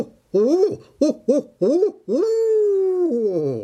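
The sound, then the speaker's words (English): Barred owl hooting its who-cooks-for-you call: four short, clipped hoots followed by a long drawn-out hoot that slides downward at the end, loud and rhythmic. “who cooks for you? Who cooks for you? Wow. That is a barred owl.”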